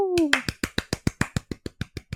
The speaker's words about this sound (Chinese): 掌声鼓励。